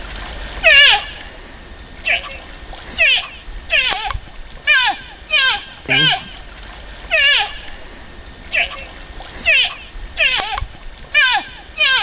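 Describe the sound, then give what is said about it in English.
Calls of a baby moose: many short, nasal, bleating cries with a wavering pitch, repeated at fairly even intervals and loud over a quiet background. “So, the sound that you had heard, and I want you to picture this setting and scene now again when you hear what it is. Is that of a baby moose?”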